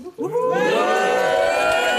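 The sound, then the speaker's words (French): A large studio audience shouts and cheers on cue. A brief noise opens, then many voices surge into a loud, sustained chorus of cheering that holds steady to the end. “mais ce public, il est nombreux. Il m'encadre comme ça, il permet de rendre cette émission très vivante. On aimerait les entendre.”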